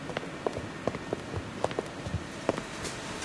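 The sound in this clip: Footsteps walk into a hall, with many light, regular steps tapping out an even pace over a soft, constant background.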